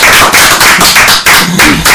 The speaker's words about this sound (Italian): Applauso scrosciante